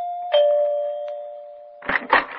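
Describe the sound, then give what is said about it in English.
Doorbell pressed at a large country-club house: a two-note chime, the second tone lower, rings out and fades slowly before a voice speaks briefly at the end. “I was so tired, I had to back up and take a running start to press the doorbell.”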